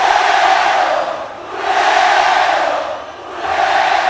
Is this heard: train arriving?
no